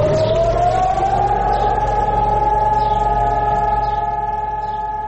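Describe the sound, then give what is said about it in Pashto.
A special alarm siren sounds in Jerusalem for Holocaust remembrance: a loud, steady wailing tone that climbs slightly at first, then holds level throughout. “پرون په بیت المقدس کې په دې مناسبت د ځانګړي الارم لغږولو سره په یو وخت موټرونه پر سړکونو ودرېدل، خلک ترې ښکته شول او د درناوي لپاره د دوه دقیقو په خاطر چوپ پاتې شول.”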